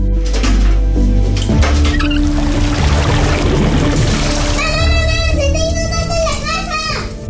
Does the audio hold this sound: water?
yes

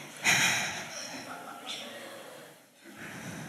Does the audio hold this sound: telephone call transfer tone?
no

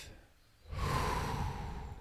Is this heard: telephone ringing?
no

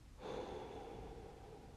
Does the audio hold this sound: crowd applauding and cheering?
no

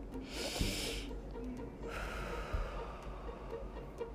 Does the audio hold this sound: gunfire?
no

